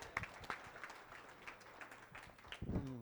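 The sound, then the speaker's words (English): Faint audience applause greets a director being welcomed to the stage, a steady patter of many scattered claps before a voice begins near the end. “So let's give him a hand as we come up here.”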